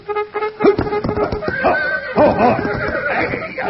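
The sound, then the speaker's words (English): A trumpet blasts a cavalry charge bugle call in a run of short, brassy notes. The pitch wavers and bends loosely from note to note, played loudly and alone. “That's the cavalry charge. That ain't taps.”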